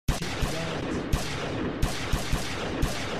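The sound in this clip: Gunfire: a series of sharp shots at irregular intervals cracking over a constant rough background noise, moderately loud with no voices.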